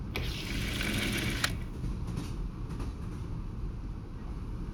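A train runs on rails with a continuous low rumble and clattering rattle. The sound is fairly quiet and even, with a couple of brief, sharper clicks early on.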